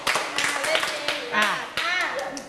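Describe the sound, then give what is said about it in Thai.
Hand clapping in a group game: a quick burst of sharp claps mixed with voices. “ปรบมือ5ครั้งปรบได้กว่านี้ปรบใหม่อีกทีไม่ดีเลย”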